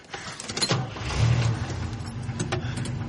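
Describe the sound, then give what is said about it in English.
A white four-door car drives along a dirt road through a grassy field. Its engine gives a steady, moderate drone that swells slightly in the middle, with a few small knocks and rattles over it. “The white four-door car drives down a dirt road in the middle of a large field with short green grass.”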